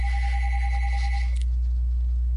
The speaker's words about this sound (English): Sorry, the phone's ringing.